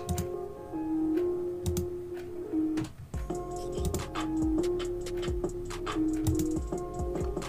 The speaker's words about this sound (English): So we're gonna double click that.